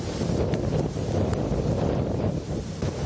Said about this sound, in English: That's the sound of Hurricane Dean hitting Bull Bay on the southern coast of Jamaica.